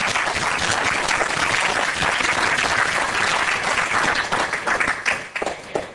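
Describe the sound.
Audience applause welcoming a professor before a lecture on dark matter and dark energy, dense steady clapping that holds for about five seconds and then thins out.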